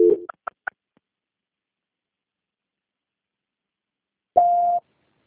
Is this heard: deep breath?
no

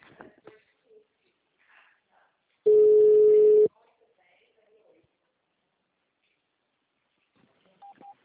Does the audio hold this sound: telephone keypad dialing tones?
yes

